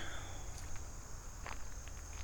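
Soft footsteps of someone walking, faint, light steps barely rising above a steady high chirring of insects.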